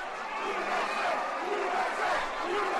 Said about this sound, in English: The sound of Penn State students gathered in downtown State College, Pennsylvania, Sunday night.